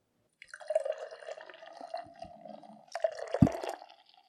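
Beer being poured, the liquid splashing and gurgling into a glass in two faint bursts separated by a short pause, with no talk over it.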